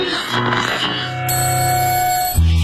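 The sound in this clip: An alarm clock rings on a morning wake-up as bright, bell-like tones sustained over a steady musical backing. The ringing grows denser partway through, and no one speaks.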